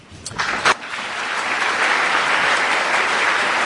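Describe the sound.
Audience applause welcomes the speakers at a law lecture event on the legacy of Marx. A few sharp claps open it, then it swells into a dense, steady wash of clapping that holds evenly loud to the end, with no voices.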